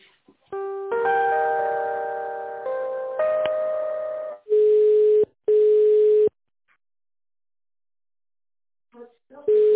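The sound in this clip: Telephone line tones play while a call is transferred. A run of steady, layered electronic tones comes first, then two long single-pitch beeps, then silence, with a brief tone returning at the very end.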